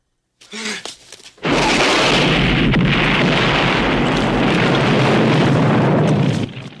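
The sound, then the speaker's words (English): A rocket launcher blast explodes at a mine entrance: a brief burst of crackling leads into a huge, sustained roar that holds at full loudness for several seconds before cutting off. “An enormous explosion engulfs the entrance of the mine.”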